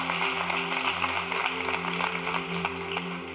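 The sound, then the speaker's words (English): Congregation applauding to welcome church family at a worship service: a steady, dense wash of clapping that holds evenly throughout, with sustained musical tones underneath. “Can you do something? Can you put your hands together? Welcome all your church family. Welcome.”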